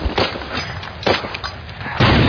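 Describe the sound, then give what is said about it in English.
Gunfire in a combat drama: a few sharp, loud bursts of shots separated by brief gaps, the last one sustained. “They're firing on the third gun.”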